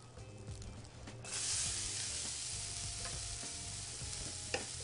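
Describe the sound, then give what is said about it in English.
Onions hit a hot pan still coated with fond and spices from fish just cooked, setting off a loud, steady sizzle that surges as they go in, with stirring scrapes and crackles. “I'm going to remove it here, and in go my onions.”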